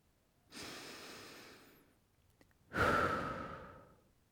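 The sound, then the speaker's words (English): Deep breathing during a morning meditation: a long, soft inhale, a brief pause, then a louder, breathy exhale like a sigh that trails off slowly. “Today's mantra is: inhale peace, exhale love.”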